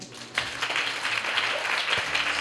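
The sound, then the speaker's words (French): Audience applause welcoming two guests at a live radio event: dense, steady clapping that swells quickly and holds for about two seconds, fairly loud. “Un applaudissement.”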